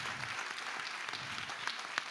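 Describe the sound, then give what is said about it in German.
A church audience applauding for its pastors after a Sunday morning service: faint, steady clapping that runs evenly, with a couple of slightly louder claps near the end. “Nochmal einen großen Applaus für Pastorin Lia, Pastor Haus, thank you, God bless you.”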